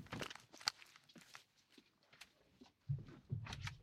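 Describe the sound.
Faint footsteps of two people walking out of a studio, a few soft irregular steps and shuffles, with a couple of louder thumps near the end.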